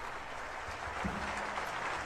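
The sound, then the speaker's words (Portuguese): Standing ovation from the audience for the Minas Gerais Philharmonic Orchestra in the Sala Minas Gerais, a thick, even wash of clapping that holds at a steady level throughout. “que recebe os aplausos da plateia, assim como a Orquestra Filarmônica de Minas Gerais, aplaudida agora de pé pelo público presente na sala Minas Gerais.”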